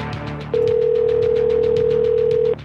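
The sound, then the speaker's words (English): A steady electronic telephone tone sounds at a single constant pitch for about two seconds, then cuts off abruptly over a soft rhythmic background. “Pick up the cocksucking phone.”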